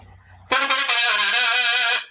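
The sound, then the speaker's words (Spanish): A whistle (pito) just taken out of a drawer sounds one sustained, shrill blast, bright and buzzy with a steady pitch. It lasts about one and a half seconds, loud and alone, then cuts off. “estamos haciendo tiempo porque el pito está llegando ahora, lo acaban de sacar del cajón. Sí. Buenas, buenas tardes, señor Pito.”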